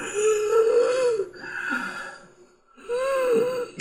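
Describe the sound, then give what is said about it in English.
A voice imitates heavy wheezing for a weak, ailing character: three drawn-out, strained breaths with a whistling, moaning pitch, separated by a short near-silent pause before the last one. “That's a lot of wheezing.”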